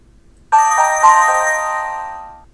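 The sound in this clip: Mobile phone alert tone played as a preview in the new-event settings: a bright, bell-like electronic chime of several quick overlapping notes that rings out loud and slowly fades over about two seconds.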